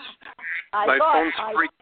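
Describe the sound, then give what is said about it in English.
A phone rings with a ringtone of quacking ducks: a quick burst of short nasal quacks, then a longer, louder run of overlapping quacks. “That's my ducks on my my phone. I got to figure out how to shut it off.”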